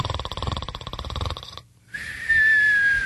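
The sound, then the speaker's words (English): A voice imitates snoring with a buzzy, rhythmic wheeze of rapid pulses for about a second and a half. After a brief silence, a steady high whistling tone follows. “She was snoring, snoring. I couldn't move her.”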